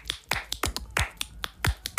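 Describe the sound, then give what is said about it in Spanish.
Crisp finger snaps and taps beat out a flamenco palmas rhythm in Barcelona, many sharp strikes in an uneven, syncopated pattern, heard alone without voices. “así con los dedos, digo, ¿eso qué es, Paco? Dice, eso es para quitarme los nervios. Porque aquí en Barcelona, si toco una bulería, se creen que es una alegría. Si toco una seguidilla, se creen que es un fandango. Dice, y las palmas son así.”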